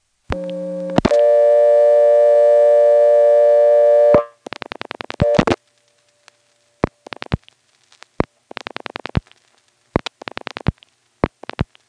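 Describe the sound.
A Siler NX1 telephone dials the number 837-9299. A steady dial tone hums for about three seconds, then stops. Bursts of rapid clicking follow, one burst per digit, with short silent gaps between them.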